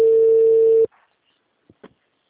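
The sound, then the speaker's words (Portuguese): A telephone busy signal: one steady, loud electronic tone lasting under a second, then near silence with a couple of faint clicks. “Já atendi dois. O número está ocupado.”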